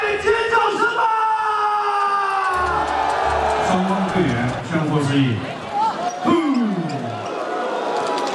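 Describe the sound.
A village crowd yelling, whooping and cheering loudly at a basketball game held for a traditional new-harvest festival, a sustained roar throughout with voices talking over it.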